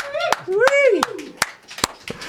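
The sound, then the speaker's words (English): Scattered hand claps answer a call for applause after a live performance. A few sharp, separate claps ring out, and a voice talks between them. “Anyone who's out there in the outer area, please lend some applause for our live performance.”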